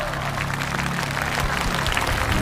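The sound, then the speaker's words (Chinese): Audience applause for an electric band's director and musicians at a Chinese music concert, dense continuous clapping held at a steady, moderate level. “让我们把掌声送给电声乐队总监刘卓和乐手老师们。”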